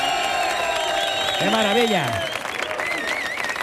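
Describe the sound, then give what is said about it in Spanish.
A big crowd at a live show cheers and applauds, with loud, continuous clapping and shouts, and a voice speaks over the noise. “masificación de público que tenemos hoy, que suena así de fuerte. Mira cómo suena el público de hoy”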